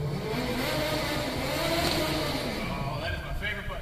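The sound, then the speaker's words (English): A large custom-built remote control vehicle drives with a steady, loud whirring motor and rushing noise that holds continuously throughout. “Folks, this is just like any other remote control vehicle you can find at a store.”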